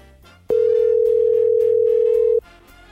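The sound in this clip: A steady single telephone tone sounds as a call is placed and rings, lasting about two seconds at a constant mid pitch and cutting off sharply, with fainter background sound continuing beneath and around it.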